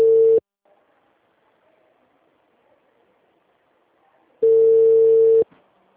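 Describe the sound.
Telephone ringback tone on the line as a call is placed: steady mid-pitched tone bursts, a short one at the start and a longer one about four seconds later, with near silence between.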